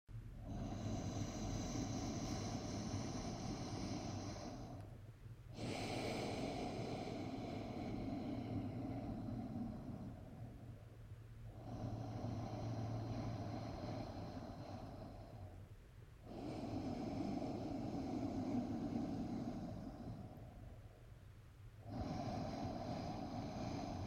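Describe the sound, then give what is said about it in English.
Slow, ocean-like breathing drawn through the throat: long, airy, hissing breaths of about five seconds each, alternating with short pauses, steady and soft, with no talk. “way that makes that signature Darth Vader sound, or it sounds like an ocean if you prefer. And I'll do it for you now.”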